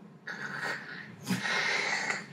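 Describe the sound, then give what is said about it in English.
A voice imitates acid breath eating away at a tree, producing two long, breathy wheezing hisses in a row, the second starting with a sharper burst and sustaining to the end. “So you spray your acid breath, and it starts to eat away at the Gothias tree, and it eats away, and you just hear,”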